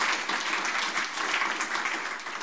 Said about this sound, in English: Give the Lord a clap if you believe that.